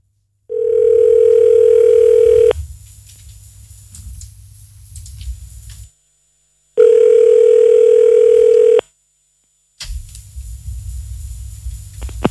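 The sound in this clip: Telephone ringing tone heard while a phone number is being called: two long, steady, mid-pitched tones separated by a pause, with a low rumbling hum filling the gaps between them.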